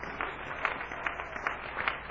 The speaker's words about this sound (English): Let's give the Lord a good hand clap of praise for our shepherd and his